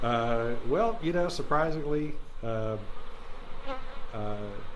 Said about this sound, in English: The bees are out pollinating crops and flowers